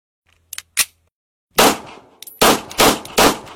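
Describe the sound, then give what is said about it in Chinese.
A drama sound effect of a sniper firing at a monster: faint metallic clicks, then four loud, sharp gunshots, the last three in quick succession. “狙击手确认击杀肉块， 蘑菇也处理掉。”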